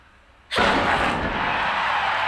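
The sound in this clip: A simple TNT-based explosive charge detonates during a demolition contest. After quiet, a sudden loud blast hits at about half a second, then a sustained, roaring rumble continues at high level until the end.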